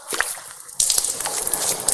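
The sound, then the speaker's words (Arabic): Tap water, opened only slightly, runs into cupped hands for washing the face during ablution: a few soft drips, then a sudden steady splashing stream with small irregular spatters. “نفتح الماء قليلا، نملأ اليدين بالماء”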